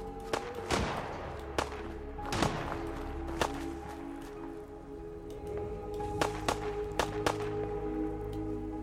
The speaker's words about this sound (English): Yeah, I just fired just like three of my minigun, flaming minigun rounds at it.